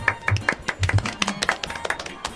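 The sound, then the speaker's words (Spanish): Scattered claps from a few people, asked for as a guest is introduced in a playful mock presentation before a jury. The claps are sharp and irregular, with no steady rhythm. “Aplausos, por favor.”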